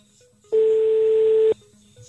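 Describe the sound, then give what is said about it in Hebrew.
A single steady telephone tone sounds for about a second, loud and even, alone against a faint background before and after. “עוד פעם, עוד פעם. זה המספר, זה הטלפון של בני גנץ”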